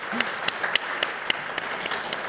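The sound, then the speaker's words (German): Audience applause, a short spell of dense clapping with a few sharp, distinct claps standing out above the rest. “Deshalb nochmal ein Applaus an die Baumänner, würde ich sagen.”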